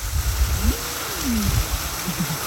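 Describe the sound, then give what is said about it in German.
A waterfall splashes in the background in a quiet French town at night, giving a steady, even rush of water throughout with a faint sliding whistle-like tone passing over it. “Aber ihr hört das vielleicht im Hintergrund, da plätschert ein Wasserfall.”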